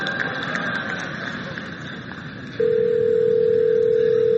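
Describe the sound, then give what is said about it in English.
A steady electronic telephone tone as a call is placed to a hair salon. It cuts in partway through over low background hiss and holds at an even pitch to the end. “So what you're going to hear is the Google Assistant actually calling a real salon to schedule the appointment for you.”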